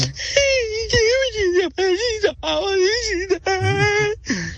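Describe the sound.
A voice imitating crying with a series of drawn-out, wavering wails and whimpers that bend up and down in pitch. The wails are loud and separated by short catches of breath.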